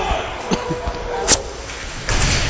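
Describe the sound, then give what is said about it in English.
A body check in an ice hockey game lands as a single sharp thump over a steady noisy background, followed shortly by a rougher burst of noise. “Oh, there's a tremendous check again. That certainly looked like charging.”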